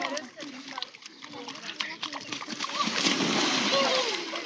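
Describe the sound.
Water splashes and sloshes at the Danube bank on a scorching heat-dome day. Steady splashing swells louder toward the end, with voices, including children's, chattering throughout.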